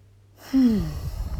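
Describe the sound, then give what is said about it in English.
A single deep breath with a voiced sigh: a short quiet lead-in, then a sudden loud breathy exhale with a falling vocal tone that trails off. “I'm going to take another deep breath.”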